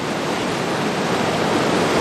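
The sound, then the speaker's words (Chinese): The Qiantang River tidal bore at Yanguan surges against the Zhan'ao tower, a dense, steady roar of rushing water that holds at the same loudness throughout. “近距离感受大潮与站鳌塔同框的震撼。潮水撞线站鳌塔，”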